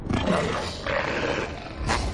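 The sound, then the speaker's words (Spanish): Deep, rough growling from an imposing wolf closing in on a boy crouched against a rocky wall in the snow: a loud, continuous rumbling snarl that surges a few times, with no voices. “Un imponente lobo se aproxima al chico que está agazapado junto a una pared rocosa.”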